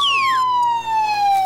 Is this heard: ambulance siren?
yes